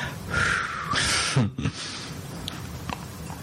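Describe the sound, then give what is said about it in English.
A deep, slow breath: an audible airy inhale followed by a breathy exhale, fairly soft and with no talking. “I'm going to be calm. I'm going to take a deep breath.”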